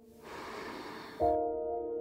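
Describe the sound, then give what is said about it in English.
A long, soft rushing inhalation during a children's guided breathing exercise lasts about a second, then gives way to a steady, sustained harmonic tone as the breath is let go. “In with your breath, filling yourself up, and then letting it go.”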